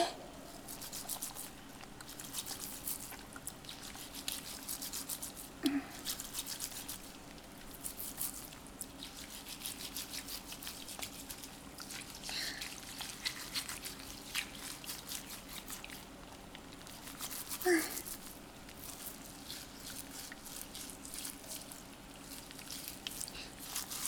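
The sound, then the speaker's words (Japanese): Foam being lathered and scrubbed: soft, wet squishing and patter with small drip-like sounds, faint and continuous throughout. “うん、このまま泡立てていくわよ。”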